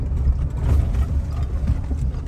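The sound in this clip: Low engine rumble of a vehicle crawling slowly over huge boulders on a steep stretch of the Arizona Trail, with uneven mechanical creaks and knocks rising and falling over the drone.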